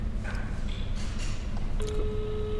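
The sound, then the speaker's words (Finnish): Telephone dialing tones from a call placed on speakerphone through Skype: a few short electronic beeps, then a steady, held tone over faint background noise. “Kumpaan sä soitat? Kaiutin käytössä sen siihen Skype-numeroon.”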